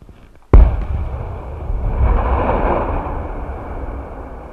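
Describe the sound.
A controlled explosion, fired remotely by cable, detonates a bomb to make it safe: one sudden loud boom, then a long low rumble that swells briefly and slowly fades.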